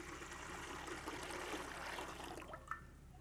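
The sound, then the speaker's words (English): Clean spring water poured from a special bottle into a baptismal font makes a steady, even trickling rush that holds at the same level, then trails off with a small splash near the end. “There's nothing really special about this water other than that it came from like a clean spring out of a special bottle. When we pour it into this baptismal font,”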